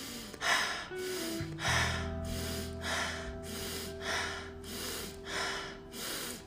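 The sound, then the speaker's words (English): Rapid breathing during a breathwork exercise, drawn in through the nose and pushed out through the mouth. Many quick, even breaths follow one another in a steady rhythm over a low, sustained drone. “inhale through the nose and out through your mouth in a more increased pace. Increase the speed, inhale through the nose.”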